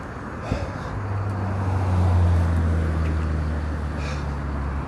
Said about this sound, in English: Car's coming, this car looks like he stopped, so I'm gonna cross in front of him and stuff.